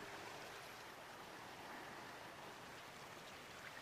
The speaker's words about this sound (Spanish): Ahora está pasando sobre una tranquila playa desierta y desciende un poco el globo para escuchar y ver las olas desde lo alto.